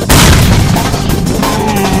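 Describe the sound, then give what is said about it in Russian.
A grenade explodes in a video game: a loud, booming blast hits almost at once, then a heavy, sustained roaring rumble carries on to the end without fading, with no voices over it. “Получи гранату, гад! Божись, граната!”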